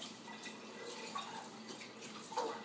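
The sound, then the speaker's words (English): Water is poured into a measuring cup while cooking rice, giving a faint, steady trickle with light splashing and a few small bubbly plips. No one speaks. “Oh, God, I don't know if I got exactly 1/3 cup of water. Actually, I should really measure this because this is exactly the way you mess up rice.”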